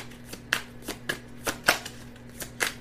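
Tarot cards being shuffled, with soft papery riffles and flicks in a series of faint, irregular bursts.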